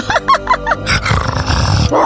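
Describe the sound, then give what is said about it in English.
Dogs growling: a few short rough bursts give way to a loud, sustained, low snarling rumble that carries to the end. “When you first fall asleep here at the Hanford House, the smile dogs come. Here they come now.”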